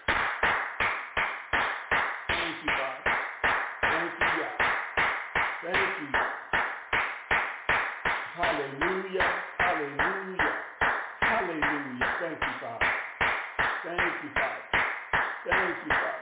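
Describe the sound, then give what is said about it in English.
An audience claps hands in unison in praise during a worship service, a steady rhythmic beat of many claps that holds through the whole stretch, with voices speaking or singing beneath it. “Let us give the Most High a hand clap of praise.”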